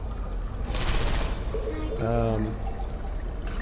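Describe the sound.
Video game gunfire: a short, dense burst of rapid shots that rattles out for about half a second, then a voice speaks briefly over a fainter hiss.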